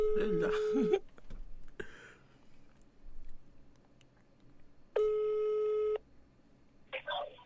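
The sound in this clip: A telephone ringing tone sounds while a call connects: two steady one-second tones about four seconds apart, with voices and background noise around them.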